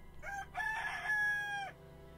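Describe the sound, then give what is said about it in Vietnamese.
A rooster crows once in a single drawn-out, faint call over a low steady background hum. “có tiếng gà gáy vang lên”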